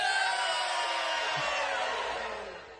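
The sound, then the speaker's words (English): A crowd of people hollering loudly together on cue at a drinking toast, one sustained, noisy roar of many voices that stays strong before tapering slightly at the end. “the count of three, we're going to holler real loud, and we're going to take a swaller of our drink, all right?”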